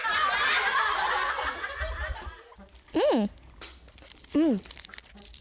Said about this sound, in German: ich esse gerade meinen Schokoladen-Nikolaus